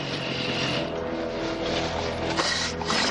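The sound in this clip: A motorcycle arrives at an overturned car in an action film scene: a sustained, broad engine roar that stays loud and steady throughout.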